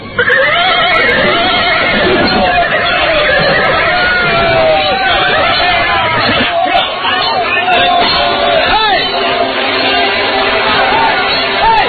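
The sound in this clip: Horses whinny and neigh beneath riders in a band of armed, white-veiled men storming a village head's yard, wavering cries rising over a loud, continuous commotion throughout.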